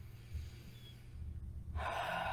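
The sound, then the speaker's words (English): A slow, deep breath drawn in through the belly during a guided breathwork and Reiki meditation: a low, quiet hum gives way to soft, airy inhaled noise that swells in near the end. “And it falls as you breathe out. Our belly expands as we take in more air.”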